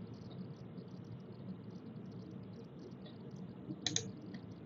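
A single mouse click lands on an OK button, one short, sharp tick rising briefly above a steady low background hiss.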